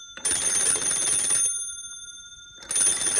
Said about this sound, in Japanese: まったく、ちゃんとピーが鳴る前に話し出す人が多くて。